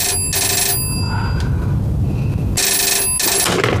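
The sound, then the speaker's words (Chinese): Telephone bell ringing at a military command headquarters: loud, bright, rattling rings in two bursts split by a pause, with no talk. “电话”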